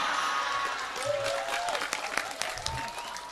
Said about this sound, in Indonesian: Rasa tepuk tangan ra penting.